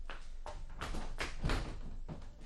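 A door is opened for a visitor in an Arabic drama scene, heard as a run of rough knocks, thumps and scraping noises that hold a fairly steady loudness for a couple of seconds.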